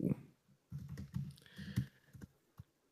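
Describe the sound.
Someone types a name on a computer keyboard: soft, quick clicks in short uneven bursts with brief pauses, faint and with no voices.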